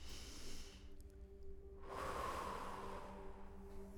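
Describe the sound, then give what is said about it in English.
A worship gathering draws a deep breath together, a soft, broad breathy rush that swells around the midpoint and holds, over faint sustained musical tones. “if we could all just collectively take a deep breath”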